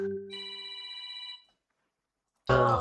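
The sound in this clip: Electronic telephone ringtone from an incoming call: one sustained, buzzy tone lasting about a second, followed by silence and then an abrupt loud noisy burst at the end.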